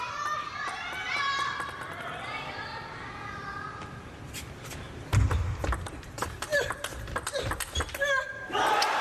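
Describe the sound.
Sports crowd at a table tennis match, late in the fourth game: a commentator talks first, then the crowd bursts into cheers and scattered clapping with sharp hand claps and shouts rising and falling.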